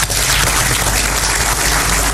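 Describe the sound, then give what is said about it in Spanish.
Applause for civil servants who doubled hemovaccine production on the same budget, a dense, even wash of clapping that stays loud and unbroken for about two seconds. “Sería bueno que aplaudiéramos a los funcionarios que con el mismo presupuesto doblaron la producción de hemovacunas para que no se mueran los animales.”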